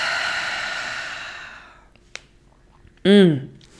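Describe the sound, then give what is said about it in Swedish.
A slow exhale through the mouth during a guided relaxation breathing exercise, a long breathy hiss that fades away over about two seconds. A faint click follows, then a short voiced sound at the end. “Och släpper långsamt ut andetaget genom munnen.”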